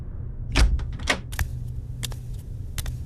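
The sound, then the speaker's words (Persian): A door opening in a spoken drama, a few sharp clicks and knocks from the latch over a low, steady rumble. “همش توی اتاق راه میرفتم تا اینکه صدای باز شدن در اومد.”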